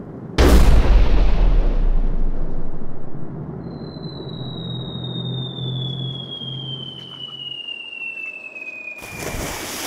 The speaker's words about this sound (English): But they have ship cannons on board. They don't aim at the sky.